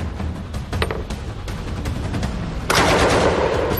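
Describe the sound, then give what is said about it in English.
A Czech-designed Bren light machine gun firing bursts: rapid cracking shots at first, then a louder, denser stretch of continuous fire toward the end. “With a range of 600 yards and firing up to 500 rounds a minute... Have some of it. The Czech-designed Bren became one of the most iconic British”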